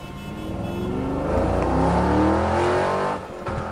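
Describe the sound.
A car engine revs in a loud, steady roar whose tone climbs in stages, then dips briefly near the end before picking up again.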